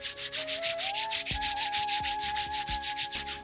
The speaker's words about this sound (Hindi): उससे पहले आप सब आंखें खोल लीजिए, अपनी दोनों हाथों को आपस में रगड़ते हुए